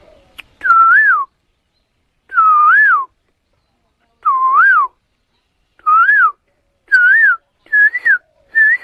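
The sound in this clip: A person whistles an imitation of a small black songbird's morning song from the start of the spring season: several looping phrases that dip and rise, sounded alone and coming closer together toward the end.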